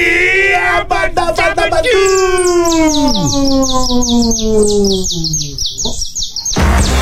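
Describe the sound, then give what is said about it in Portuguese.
Saffron finch (canário-da-terra) singing: bright, loud chirps and clear whistled notes in quick succession, including a long sliding note, followed by a fast run of repeated high trills. “Professor Canário da Terra chegou do nada, ó, chegou chegando e já levou. Ninguém acertou, hein? Ninguém acertou.”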